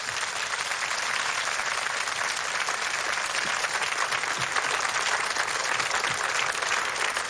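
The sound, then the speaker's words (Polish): Audience applause at a live stage event fills the whole stretch: dense, continuous clapping from a crowd that stays at an even, full level from start to finish, with no voices rising above it. “Duże, gorące brawa.”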